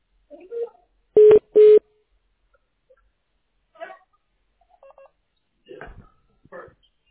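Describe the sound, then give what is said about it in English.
Touch-tone dialing on a telephone as a number is keyed in again: two loud, steady beeps in quick succession, then a much fainter short tone later, with brief quiet bits of voice scattered around them. “okay, I'm going to dial him one more time.”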